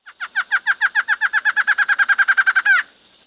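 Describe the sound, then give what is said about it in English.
Barred antshrike call played as a phone ringtone: a rapid series of more than twenty clear, even notes that speed up slightly and end in a longer, rising final note, then fade out. “what was that? That was a barred antshrike.”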